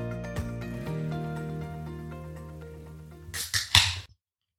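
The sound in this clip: A can of pumpkin pie ale is cracked open at the end of a steady tonal stretch, with a sharp pop and fizzy hiss in two quick bursts, then silence.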